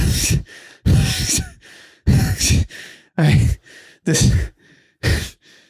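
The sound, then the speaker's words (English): A voice imitates an out-of-breath jogger panting: six loud, harsh, breathy gasps alternate with softer intakes in a steady, labored rhythm. “An out of breath jogger.”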